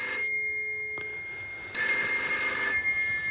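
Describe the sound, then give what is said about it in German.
A telephone in a small grocer's shop rings with a bright, tonal electronic trill in two bursts: a brief one at the start and a longer one after a pause, with a faint knock in between. “Ihr seht, das ist ein Telefon.”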